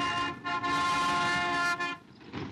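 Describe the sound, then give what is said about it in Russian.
Horn of a GAZ-653 ambulance van speeding through the city: a loud, sustained honking tone broken by two brief gaps, then dropping softer near the end. “По городу несется санитарный фургон ГЗА-653.”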